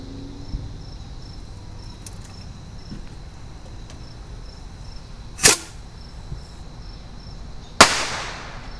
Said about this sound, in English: So it's time to light bottle rockets.